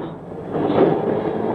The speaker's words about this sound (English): I'd arranged with Horry Saunders to join me on the train a few stations down the line.